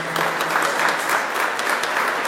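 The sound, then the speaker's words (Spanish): Neighbours applaud a woman at a municipal government gathering, with dense, steady clapping from a crowd that carries on at an even loudness through the whole clip. “Un aplauso para ella”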